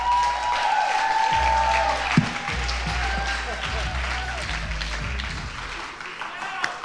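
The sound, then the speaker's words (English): Audience applause as a guest comes out on stage, a steady wash of clapping that lasts several seconds while a voice keeps talking over it. “I want you guys to make some noise and give it up for Josh, who's coming out here right now.”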